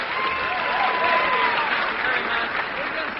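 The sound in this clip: Audience applause welcoming a pair of brothers back to the stage for another song at a country show: a dense, even wash of clapping that holds steady throughout without a break.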